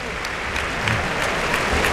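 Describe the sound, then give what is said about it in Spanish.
A crowd gives an ovation at a bullfight, a dense and steady wash of clapping from many hands that holds at an even, fairly loud level throughout, with no talk over it. “Y esta ovación es de premio al esfuerzo que ha hecho Manzanares.”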